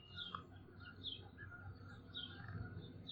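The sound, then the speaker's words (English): Faint calls from Canada geese flying overhead, a few scattered short notes above a steady low outdoor rumble. “Some Canada geese flying overhead.”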